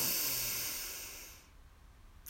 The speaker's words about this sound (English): So deep breath in, extending your belly.